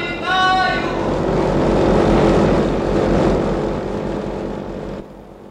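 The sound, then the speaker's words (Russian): An airplane taking off: a brief high engine whine at the start, then a loud, steady roar of engine and rushing air that holds for several seconds before dropping off sharply. “Самолет на старт! Есть самолет на старт!”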